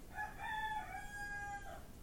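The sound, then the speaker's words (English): A rooster crows one drawn-out cock-a-doodle-doo with a rising then level, tonal call, heard faintly above a steady hiss of background noise. “That's a rooster.”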